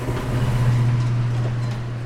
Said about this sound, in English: The elevator ride is a lot slower than normal, but the reason has to do with sound.